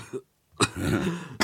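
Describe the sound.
A tobacco smoker at home coughing: two harsh, abrupt bursts with a rough, breathy vocal sound between them.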